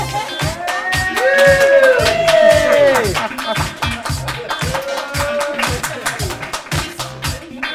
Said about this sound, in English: Right, well, we'll just leave that delightful sting there.